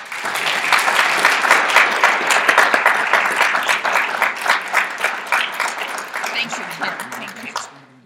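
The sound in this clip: Applause from a lecture audience welcoming a professor to speak: many hands clapping in a loud, dense, continuous wash that gradually thins and fades out near the end.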